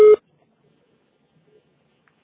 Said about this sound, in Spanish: grabe su mensaje después del tono.